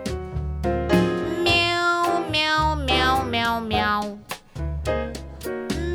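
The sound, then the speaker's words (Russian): Kitten meowing in a long run of many drawn-out, strongly tonal mewing calls, loud and nearly continuous with only brief gaps between them. “Мяу, мяу, мяу, мяу, мяу. Котенок обиделся. Мяу, мяу, мяу, мяу, мяу. Или он голодный.”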